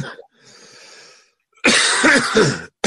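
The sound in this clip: A man coughs, starting with a soft breathy sound, then loud, harsh coughing bursts, with a brief pause before one more cough at the very end.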